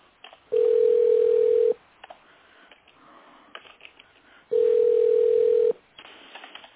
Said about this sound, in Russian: Продолжаем дозваниваться. Оставайтесь на линии. Она пока не берет.